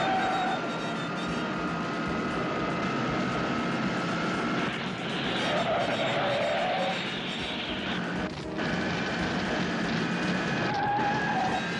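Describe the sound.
An airplane takes off with a loud, continuous engine roar and a steady tonal whine layered on top. The sound holds fairly even throughout, with only slight dips.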